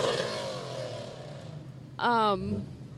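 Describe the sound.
A Lamborghini sports car at a Mobile Bay cars and coffee meet gives a short, loud engine rev late on, a bright rising snarl lasting under half a second after a stretch of quieter talk and background rumble.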